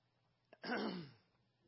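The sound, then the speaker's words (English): A single throat clearing, a short rough rasp right after a tiny click, faint and alone with no talk around it. “Clear the throat.”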